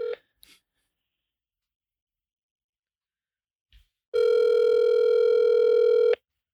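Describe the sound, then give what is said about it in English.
A telephone dial tone sounds as a call is placed: a steady, loud, unbroken hum lasting about two seconds on its own. Brief faint clicks come before it. “We're going to make some calls right now.”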